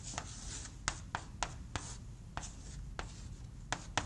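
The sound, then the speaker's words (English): Writing on a board during an engineering lecture: soft scratchy strokes run continuously, broken by many sharp taps of the writing tool, with no voices. “Okay, so let's write then.”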